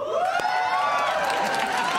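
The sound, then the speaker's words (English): A studio audience at a late-night talk show cheers and whoops, a dense continuous roar of many voices with high sustained whoops riding on top. “I just told you that a major American company is closing. Euphoria from the audience. That's the happiest I've seen a crowd.”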